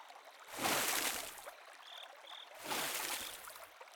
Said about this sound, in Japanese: それでは、背中を流しますね。